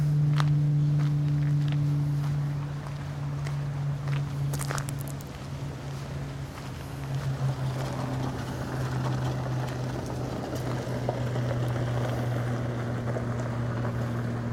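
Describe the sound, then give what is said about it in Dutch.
Small passenger taxi cart driving past on a path in a cemetery park, giving a steady low motor hum that drifts gently lower in pitch as it goes by, without voices. “Het karretje wat net voorbij komt rijden, dat is de taxiservice.”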